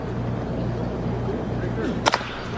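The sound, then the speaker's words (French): Crack of a baseball bat hitting a ball foul during a game, a sharp brief double snap near the end over steady background noise. “Frappé hors ligne du côté du troisième.”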